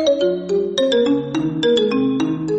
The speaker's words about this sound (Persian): این صدای آشنای نوکیا 3310 بود